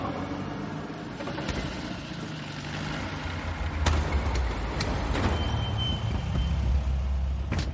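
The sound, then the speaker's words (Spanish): Engine rumble as a car pulls into a car park near an airport and parks beside a white van. The low noise is steady and broken by a few sharp knocks. “El vehículo llega al parking próximo a un aeropuerto y aparca junto a una furgoneta blanca.”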